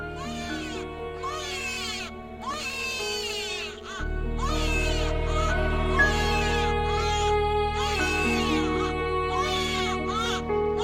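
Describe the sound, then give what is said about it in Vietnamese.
A child crying plaintively through the night of a full moon in the seventh lunar month: repeated drawn-out, wavering wails over a steady low drone that swells louder partway through. “Đầu đó có tiếng trẻ con khóc dạ đề, ai oán giữa cái đêm rằm tháng 7.”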